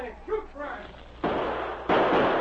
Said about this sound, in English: Once more, the outlaws opened fire, but panic spoiled their aim.